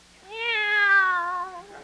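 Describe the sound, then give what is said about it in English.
A single drawn-out meow from a pet cat, loud and clearly tonal, holding a steady pitch before sagging slightly as it fades after a little over a second, with no talk around it. “Take our cat Minerva. For the past week, I've been teaching her mathematics, and she's become a whiz at it.”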